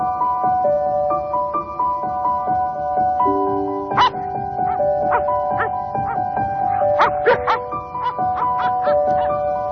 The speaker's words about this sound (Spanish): Y ahora os vamos a explicar por qué escuchamos el ladrido de un perro en Historias de la Historia con Javier Sanz.